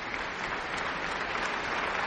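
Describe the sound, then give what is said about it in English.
An audience applauds Tanglewood Music Center fellows after a concert: a continuous, dense roar of clapping that stays full and even throughout, with no gaps. “He's back on stage now applauding for the fellows of the Tanglewood Music Center and bows before the audience once again.”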